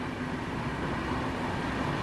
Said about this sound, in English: Here's another train. This is another S-Bahn going on the other track there, heading outward.